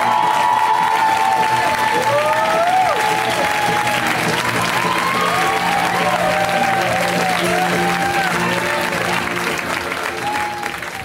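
Loud audience applause and cheering welcome Conan O'Brien onstage: dense continuous clapping mixed with whoops and shrill whistles throughout.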